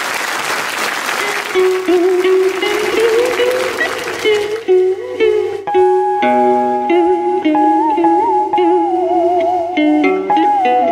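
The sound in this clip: Loud audience applause and crowd noise greets a female singer taking the stage at a live music show, then fades as sustained melodic music begins.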